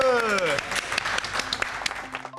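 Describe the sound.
Applause from an audience at a children's show, following a pupil's drawing of a fight scene: a dense stream of sharp claps. A tonal voice-like sound opens it, and the clapping continues steadily to the end.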